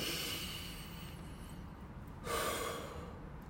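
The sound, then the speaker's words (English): Deep breathing: a long, airy rush of breath slowly fades, then a louder, sharper breath surges in and eases off, with no talking. “you should probably just sit back and just breathe. Just breathe. Because I'm going to do the same thing.”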